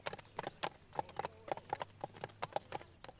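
Hooves clip-clop steadily as three horses are ridden out together, giving many crisp, evenly paced hoofbeats in a brisk walking rhythm with no talk.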